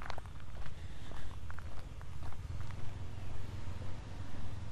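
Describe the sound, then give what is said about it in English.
Footsteps of a runner outdoors during a three-mile run. Many steady, rhythmic footfalls come in even succession over a low rumble, fairly faint throughout. “Headed out for my 3-mile run today. Very happy to be getting it in.”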